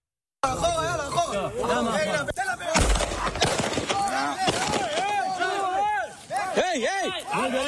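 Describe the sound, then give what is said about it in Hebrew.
Gunfire from video footage of a soldier shooting a Palestinian man near the village of Faqqu'a by Jenin: sharp blasts cut through loud, agitated voices of people talking and shouting. “חייל צהל צולם יורה בגבר פלסטיני מבלי שזה תוקף אותו או מאיים עליו.”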